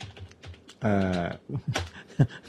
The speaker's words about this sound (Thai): พิมพ์เข้าไปก่อนพิมพ์ถาม AI สิ